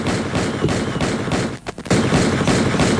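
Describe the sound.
A gunshot sound effect: a dense, loud burst of rapid gunfire that breaks off briefly midway, then resumes just as heavily.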